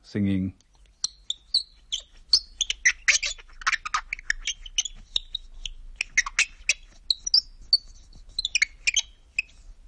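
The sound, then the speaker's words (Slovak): Parts of a homemade instrument built with a metal screw are rubbed together, giving many short, high, squeaky chirps in an irregular birdsong-like pattern, with a brief low sound at the very start. “Keď časti tohto nástroja šúchate o seba, vydáva zvuky podobné spevu vtákov.”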